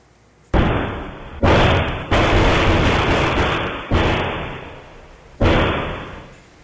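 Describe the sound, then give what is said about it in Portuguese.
Gunfire exchanged between a police officer and robbers during an attempted break-in at a house: five loud, sharp reports at irregular intervals, each followed by a long, slowly decaying boom. “Nesse momento, a quadrilha é surpreendida pelo PM, que começa a atirar. Os ladrões revidam.”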